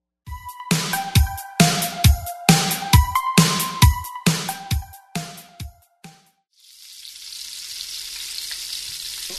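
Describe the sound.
Bacon from moinkbox.com frying: a steady, bright sizzling hiss that takes over after a quick run of many sharp, clattering hits.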